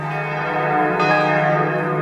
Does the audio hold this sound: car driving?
no